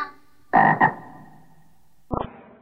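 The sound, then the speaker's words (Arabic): A frog croaks in two quick, loud, raspy bursts. After a pause comes a shorter, rattling croak. “ضفدع ضفدع نق نق، اسمع اسمع نق نق”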